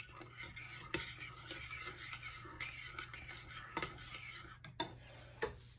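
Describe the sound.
Stirring flour in a bowl: a soft, continuous scraping with a few sharp clinks of the utensil against the bowl.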